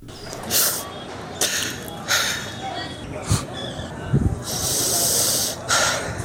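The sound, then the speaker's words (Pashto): Sobbing of a village elder from Haska Mina in Nangarhar, grieving at a hospital after a deadly bombing: many breathy, gasping sobs and sniffs in uneven bursts, with a longer, drawn-out wail near the end. “دا د هسک مینې د جودري د کلی د سپینګيري د سلګو غږ دی.”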